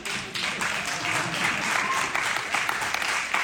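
Applause led by actors is directed at their audience. It is a dense, steady patter of many hands clapping, moderately loud and unbroken throughout.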